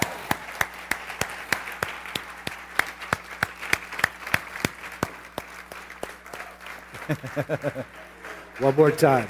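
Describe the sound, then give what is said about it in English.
Clapping from a church audience welcoming a guest to the platform, sharp claps in a steady, even rhythm of about three per second, with voices rising near the end as the clapping continues. “I want you to welcome her to the City Church platform. Can you do that? Let's give her a great big hand.”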